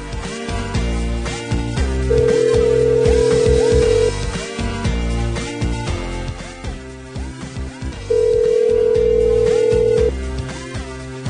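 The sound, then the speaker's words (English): Ringback tone of an outgoing telephone call: two long, steady, mid-pitched electronic tones of about two seconds each, separated by a longer pause. “I'm just going to ring this lady's phone for the next hour until she picks up. She's got to pick up.”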